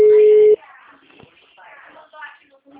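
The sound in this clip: A telephone busy signal: one loud, steady mid-pitched tone lasting about half a second, then quiet talking in the background.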